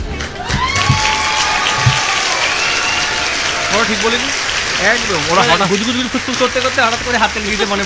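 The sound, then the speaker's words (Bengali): A team clapping in loud, dense, sustained applause that fills the whole stretch, with voices cheering and calling over it in the second half. “এবার আমি শুনবো হাততালি team কেমন করে হাততালি দেয়।”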